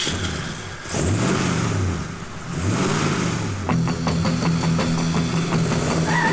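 A car engine revs on a helideck, swelling and falling twice before settling into a steadier, higher drone as it pulls away.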